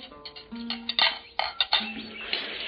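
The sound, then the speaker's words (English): Dishes and cutlery clinking in an inn's dining room at breakfast: a run of sharp, bright clinks and clatters at an irregular pace, with no talk. “stop by in the dining room of the inn for a hearty breakfast.”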